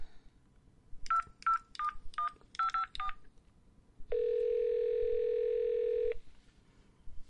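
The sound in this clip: A telephone number is dialed on a touch-tone keypad. A quick series of short, clear beeps is followed by one long, steady tone over faint background noise.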